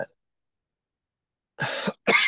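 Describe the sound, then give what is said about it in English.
Two sharp coughs in quick succession, breaking a silence during a conversation. Each is a harsh, breathy burst, the second slightly louder than the first. “we're both coughing here”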